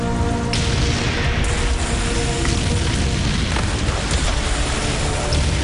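Explosions and gunfire from the June 1944 D-Day landing of Canadian tanks and infantry at Juno Beach, Normandy: a dense, unbroken roar of booms with sharp cracks scattered through it, loud and steady throughout.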